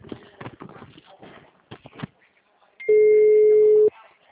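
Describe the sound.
A dropped phone call tone: one steady, loud electronic beep lasting about a second, following a short stretch of muffled speech.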